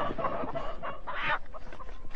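A large flock of chickens clucks continuously: dense overlapping clucks and short cackles in a busy, irregular chatter of steady loudness.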